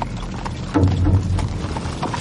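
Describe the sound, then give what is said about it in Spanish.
Cavalry horses pass with a dense, continuous clatter of hoofbeats, loud and unbroken over the short stretch with no clear pauses. “Tras ellos va la caballería y detrás la infantería.”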